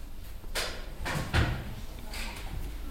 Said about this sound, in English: Pick up the book he looked at. It's on the third shelf down.